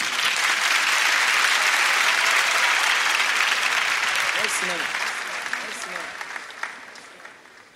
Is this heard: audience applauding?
yes